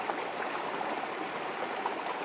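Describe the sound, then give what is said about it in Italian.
Water of a mountain stream flows in a continuous, even rushing hiss, steady and moderately faint throughout, with no voices. “in Gaia, vicino a questo ruscello di montagna,”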